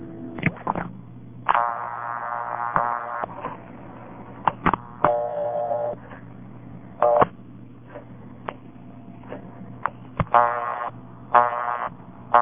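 Touch-tone dialing on a hotel room phone fitted with a call restrictor, placing a local call: a quick series of electronic beeps of differing pitch, with short gaps and a few clicks between them.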